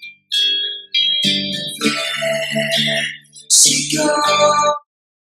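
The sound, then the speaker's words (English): Echoey, reverb-soaked vocal in a pop song. Sung phrases ring out with smeared tails and fill the mix loudly across a few lines, with a brief dip midway, before cutting off abruptly. “Kind of get the echoey reverb vocal here.”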